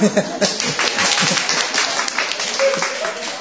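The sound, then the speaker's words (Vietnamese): People clap together in a group, a ragged burst of hand claps that keeps going at a fairly even level, with voices mixed in. “Cái này có nên vỗ tay không ta?”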